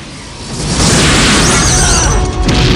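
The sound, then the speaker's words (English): Explosions erupting around a camp: a continuous roaring rumble that swells loud after the first moment and holds at full force, with rough, crackling texture on top. “He runs through camp as explosions erupt around them.”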